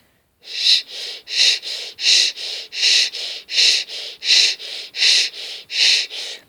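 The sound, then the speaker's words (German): Breathing in and out while the mouth holds a sustained "sh" position, making a rhythmic series of many hissy breath bursts that alternate between stronger and softer strokes at a steady, unhurried pace, with no talking. “indem Sie in der SCH-Stellung verbleiben und dann Ein- und Ausatmen durch dieses SCH nehmen. Es hört sich so an.”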